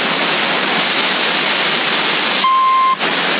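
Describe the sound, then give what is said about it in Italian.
A single steady electronic beep, used to bleep out words, cuts through constant hissing CB radio static for about half a second partway through; no voices are clearly heard beneath it. “Mettono il bip come se magari dicessi parolacce, roba del genere.”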